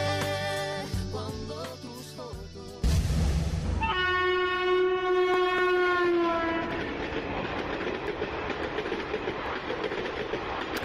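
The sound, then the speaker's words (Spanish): A train rumbling and clattering along the rails, then a long, loud horn blast that sags slightly in pitch before fading into continued rail noise and rattling. “Bueno, para nuestra historia sonora que trata de alguien que no se deja ver muy seguido, pero es una gran celebridad, nos vamos a subir a un tren.”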